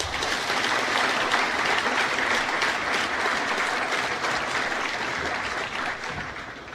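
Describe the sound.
Dense, sustained applause from an audience welcoming new students at a university matriculation ceremony opening the academic year, steady throughout and easing slightly at the end.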